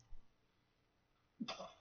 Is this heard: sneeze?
yes